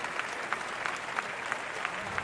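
Audience applause at a political rally: steady, dense clapping from many hands, loud and continuous with no talk over it.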